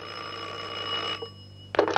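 A telephone bell rings with an incoming long-distance call for a police inspector. A steady, bright ringing lasts about a second, then stops, and a short louder burst follows near the end.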